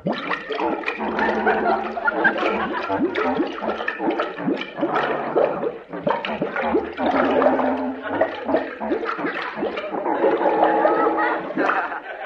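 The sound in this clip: Churning, gargling bubbles pass off as Benny Goodman playing Danny Boy in a skin diver suit, 20 feet underwater in a kelp bed. The gurgle is continuous and loud, with muffled tonal wobbles running through it for about twelve seconds.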